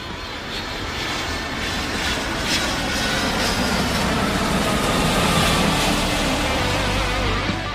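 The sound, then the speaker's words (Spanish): Airplane engine roar of an aircraft taking off, a broad, steady rumble with a hissing top that holds loud throughout and swells slightly toward the end, with no voices. “Viajaremos a lugares lejanos, así que abróchense bien los cinturones, que vamos a despegar.”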